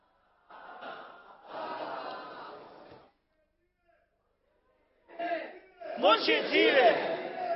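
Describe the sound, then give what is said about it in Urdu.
A crowd chants a Punjabi slogan in two loud bursts of massed shouting voices with a short silent pause between them. The second burst is louder and more strident. “یہ پنجابی نعرہ ہے, کراچی میں یہ نعرہ نہیں لگتا ہمارے یہاں, شاید یہ لگتا ہے یہ پنجاب والے لگا رہے”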